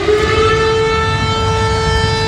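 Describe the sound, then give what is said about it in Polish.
Air raid warning sirens sound over the cities of Lublin and Rzeszów, holding one loud, steady wailing tone with strong overtones, with a low rumble beneath it. “A syreny alarmowe zaskoczyły mieszkańców Lublina i Rzeszowa.”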